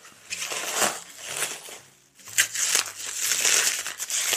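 Crinkling and crumpling of wrapping as a taped gift package is unwrapped under a table, in irregular rustling bursts with a short pause midway.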